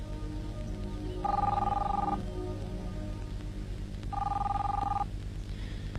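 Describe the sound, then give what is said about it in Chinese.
Telephone ringing in two separate bursts, each a steady buzzing mid-pitched trill about a second long, with a pause of a few seconds between them over a low background hum. “你不想接电话？”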